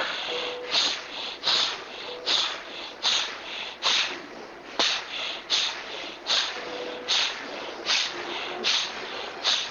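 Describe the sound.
Breathing only through the nose: a steady run of many short, hissy inhales and exhales with sniffly, snort-like edges, loud and even, with no talk.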